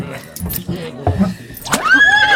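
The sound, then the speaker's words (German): A carriage horse, harnessed and ready, gives a loud whinny near the end, a bright wavering call that follows a few scattered shorter sounds. “Pferd und Wagen stehen bereit”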